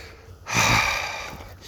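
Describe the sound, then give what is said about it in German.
A single deep inhale from a person walking along a path beside the water in the evening. The breath swells quickly, then slowly fades, alone and fairly loud. “Ich atme mal ein”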